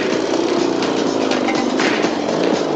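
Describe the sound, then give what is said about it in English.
A small motorbike engine runs as the bike climbs onto railway tracks, a loud, dense buzzing drone that holds steady throughout with no talk. “The rat's bike making light work of mounting the tracks.”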